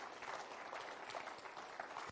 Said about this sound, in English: go ahead, give them a hand clap of praise.